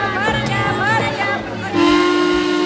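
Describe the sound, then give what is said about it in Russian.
A steamboat whistle sounds partway through as a loud, steady, low-pitched blast that holds to the end, entering over a busier, shifting tonal background in the opening. “И замирает, услышав гудок парохода.”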